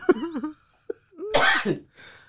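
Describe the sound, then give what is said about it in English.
A single forceful, deliberate cough, a loud broad burst midway, preceded by short vocal sounds. “Okay, why don't you cough and get it over with? Just cough.”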